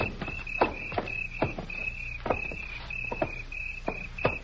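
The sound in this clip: Footsteps thud on a wooden boardwalk in the dark, many irregular knocks under a steady, high chirping of crickets.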